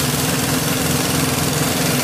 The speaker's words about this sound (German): Das ist jetzt wie so ein richtiger Akkuschrauber, ne? Zu Hause bloß mit mehr mit Druckluft, ne? Genau, ein sogenannter Schlagschrauber.